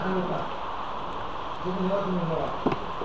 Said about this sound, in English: Nice rain going on here.